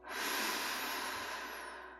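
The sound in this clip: A slow, deep breath in during a guided abundance meditation, a steady breathy hiss that swells quickly and holds for about two seconds, alone with no talk.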